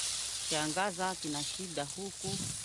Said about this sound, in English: fries some scarce supplies on a pan over an open fire.